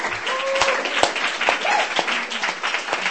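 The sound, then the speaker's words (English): Applause from an audience at a reading event, a loud, steady run of many hand claps with crisp individual claps standing out. “Give him a hand.”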